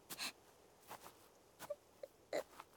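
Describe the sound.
Crying from a character in a video game comes as several brief, faint whimpering sobs in separate bursts.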